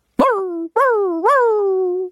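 Dog giving plaintive, almost human cries on greeting someone who has returned: three loud drawn-out yelps, each jumping up and then sliding down in pitch, with no other sound around them.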